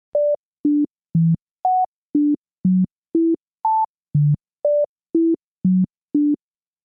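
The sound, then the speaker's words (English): A familiar melody is played as thirteen pure electronic tones, evenly spaced. Each note leaps into a different octave, so the pitch jumps widely up and down from one tone to the next. “you could play do, re, mi with the notes jumping into a different range. So Diana takes a well-known tune, doesn't change the melody, just changes the range.”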